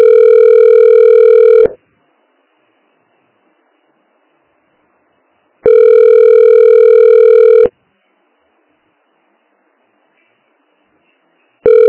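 A telephone ringback tone plays while a call is being transferred to another extension: two loud, steady buzzing tones of about two seconds each, separated by a long silence, then a third tone just starting at the end.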